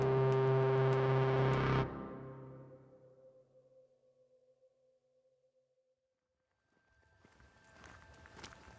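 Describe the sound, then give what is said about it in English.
Footsteps walking through deep woods on a remote parcel of land. A loud sustained tone fades into near silence first, and then rustling steps start in the last couple of seconds. “And I am wandering through a seemingly endless parcel of land that is so deep in the woods that the roads we thought bordered the property are not roads.”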